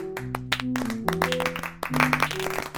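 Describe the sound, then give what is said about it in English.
Lo-fi clapping sound effect triggered in the Clappy web app: irregular, overlapping hand claps at a moderate level, bunching and thinning across the few seconds. “Clappy is an easy-to-use, lo-fi web-based app where users can trigger clapping sounds like this.”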